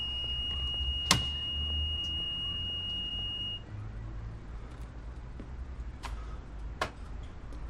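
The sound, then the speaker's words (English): Smoke detector screeching in a kitchen after a pan fire, a steady high-pitched tone that sounds for about three and a half seconds and then cuts off, with a few sharp clicks amid low background noise. “He reaches up and presses a button on the screeching smoke detector.”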